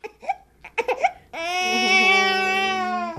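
An eight-week-old baby boy, fussy after his nap, gives a few short fretful whimpers and then breaks into a long, loud, sustained wail with a strained tone.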